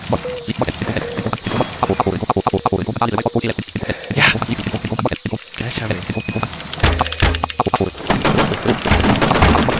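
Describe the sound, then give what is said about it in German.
Machine gun fire in a video game: dense, rapid bursts of shots mixed with loud game noise, with excited voices shouting over the gunfire. “Hey, ich hab ihn sogar erwischt mit der Machine Gun!”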